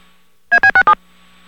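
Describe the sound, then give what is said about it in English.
Four short DTMF touchtone beeps on a payphone call, played as a quick, evenly spaced burst over a faint steady line hum. “You hear the synthesized voice say thank you, then you hear four DTMF tones”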